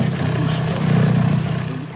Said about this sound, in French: Oh, qu'il est gentil, ce gros lion-là. C'est un gros lion gentil, ça, hein?